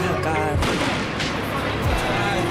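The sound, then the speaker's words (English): Flashbang stun grenades going off at a street protest with police present: a few sharp, concussive bangs cut through a constant crowd din with voices. “that was a flashbang. People didn't run far.”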